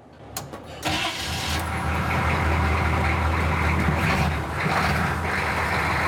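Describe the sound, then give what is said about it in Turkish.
An M1008 truck engine that has sat since the day before is started without throttle: a few clicks, then the engine catches and settles into a steady, loud, rumbling idle that continues throughout. “İşte çalıştı, duydun mu? Evet. Evet, evet. Ben aracı şimdi biraz ileri alayım. M1008. Diğer adıyla Cockpit.”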